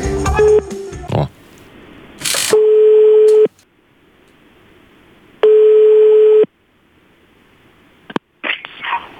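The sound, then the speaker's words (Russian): A telephone call goes through after dialing, with two long, steady, mid-pitched ringing tones separated by silence, and short clicks and bursts of noise at the start and end. “Звоним.”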